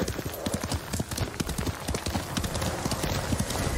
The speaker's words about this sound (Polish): Gdzie jest mój konik? Chodź, kochany, chodź, chodź, chodź.